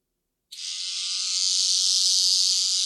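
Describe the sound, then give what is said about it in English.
An electric toothbrush buzzes as it agitates wet concrete. It starts abruptly after half a second of silence, then runs as a steady, loud, high-pitched drone until the end. “I'm going to agitate my concrete. And the way I'm going to do that is with an electric toothbrush.”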